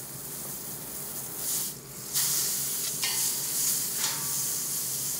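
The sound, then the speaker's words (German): A pork leg sears in vegetable oil over a high flame, giving a steady, bright sizzle with a few louder hissing surges, heard on its own without voices. “In Pflanzenöl brät er das Keulenstück auf hoher Flamme scharf an.”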